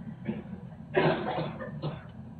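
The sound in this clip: A person coughs on request during a medical examination. A few rough, breathy bursts sound alone, the strongest lasting about half a second, with a shorter one after it.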